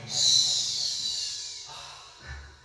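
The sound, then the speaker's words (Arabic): A person imitates a snake during a ruqya healing session, giving a long, breathy, high hiss that slowly fades over about two seconds, followed by a brief low exhale. “اسمع، نسمع فحيحك”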